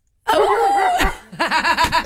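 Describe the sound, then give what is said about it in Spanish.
A dog barks, first with a long, drawn-out wavering bark and then a quick run of short, bouncy barks that carries to the end. “Cuando el perro ladra.”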